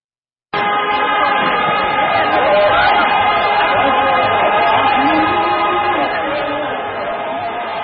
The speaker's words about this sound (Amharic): ጥምቀት በዓል ቁጥራቸው እጅግ በበዛ ታዳሚዎች ጎንደር ላይ በድምቀት እየተከበረ ነው።